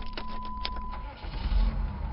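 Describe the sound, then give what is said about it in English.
A car engine left running gives a low, steady rumble with a faint thin hum above it, staying fairly even throughout. “Okay, Rick, let's go. And leave the engine running just in case. Oh, okay. Hey, I said leave it running.”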